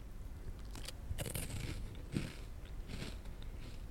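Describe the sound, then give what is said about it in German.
Crisp crunching as salad croutons are bitten into by hand, a few sharp cracking bites standing out over a steady crackly chewing texture, with no voices during the bites. “Ich beiße es alles mal für euch rein und ihr könnt erraten, was es ist.”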